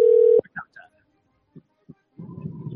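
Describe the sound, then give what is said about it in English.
A telephone being dialed: a steady, loud dial tone cuts off, followed by a few short dialing beeps and soft clicks with pauses between them, then a low rumbling noise at the end. “Dial it up again.”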